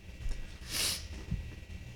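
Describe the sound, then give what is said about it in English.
A single snort-like sniff through a nose stuffed up by a change in weather: one brief, breathy, hissing burst in the middle, faint and alone. “Excuse me. My nose is getting stopped up. This weather change is stopping my nose up and getting everything. I'm going to have to get unclogged here.”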